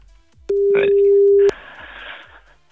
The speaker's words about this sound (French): On appelle tout de suite ton papa.